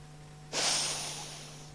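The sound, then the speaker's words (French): A single loud, airy breath rushes in suddenly over a faint steady hum, then slowly tapers off over about a second. “Inspire. Expire.”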